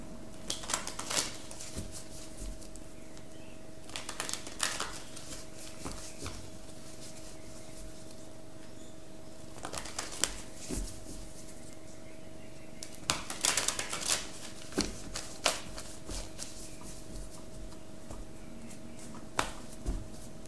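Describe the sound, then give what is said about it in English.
Tarot cards being shuffled and drawn: a few short bursts of crisp, rapid card riffling and snapping, separated by quiet gaps over a faint steady hum. “Let me get one more card.”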